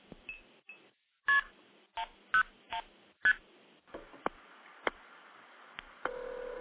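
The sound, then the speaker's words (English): Touch-tone keypad beeps as a phone dials into a test recording on an Asterisk phone system: a quick, uneven run of short, faint tones with small gaps, then a few softer clicks. “We'll blow Evan off here and dial into one of the test recordings”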